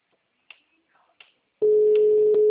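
Phone busy tone after a dropped WhatsApp call: a few faint clicks, then a loud, steady mid-pitched tone that holds to the end.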